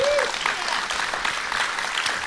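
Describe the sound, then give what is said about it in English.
Audience applause, a brief, steady wash of many hands clapping at moderate loudness. “I was afraid they weren't going to applaud. They were thinking about it.”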